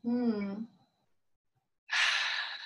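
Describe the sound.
A deep breath taken and released: a soft voiced sigh comes first, then a pause, then a loud, airy rush of breath with no speech.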